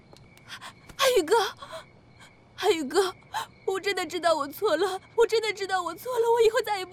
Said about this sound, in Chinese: 别哭了啊！